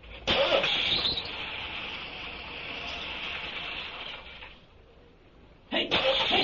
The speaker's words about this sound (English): Got the tools in the back, along with the coveralls and that blanket, all set to hot wire and crank it up.